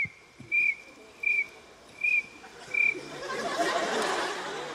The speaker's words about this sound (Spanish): Esperemos que el grillo sea mejor. Vamos con el grillo ahora.